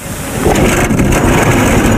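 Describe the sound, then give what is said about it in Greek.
A car engine turned over with the starter: a loud, rough, continuous rumble mixed with wind-like noise, swelling after the first half second and then holding steady. “Πάτα τώρα τη μίζα. Ποιος ήρθε? Τη μίζα, λέω, πάτησε τη. Να την πατήσω? Βεβαίως.”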